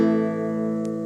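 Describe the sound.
A guitar playing an A minor chord: a single strummed chord rings out with rich, steady overtones and fades slowly, with no voices.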